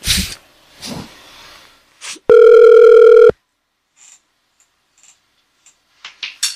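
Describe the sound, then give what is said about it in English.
A telephone call ringing through to a hotel gives one steady electronic ringback tone, about a second long. Soft handling noises come before it, and faint clicks follow. “All right, let me call a different hotel.”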